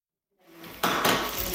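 Clattering of pots, pans and utensils as someone cooks a burger in a kitchen: after a moment of silence, soft rattling builds, then a sudden louder burst of metallic clanks and scraping carries on to the end.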